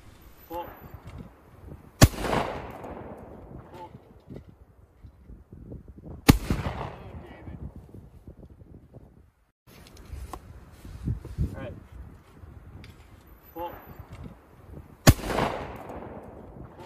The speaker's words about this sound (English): Here is David Hogg at a gun range.